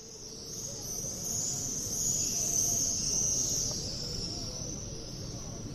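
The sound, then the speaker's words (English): Swifts returning to nest near the Western Wall fill the air with a steady, shrill chorus of high-pitched screams over a faint low rumble. “swifts returning to nest near the western wall.”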